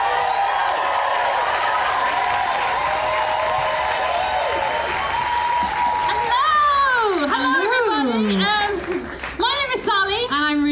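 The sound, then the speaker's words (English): Audience applause and cheering welcome a pair of performers onto a stage, a dense, sustained wash of clapping with rising whoops and shouts toward the end. “please put your hands together and very, very warmly welcome to the stage, Stiff and Kitch.”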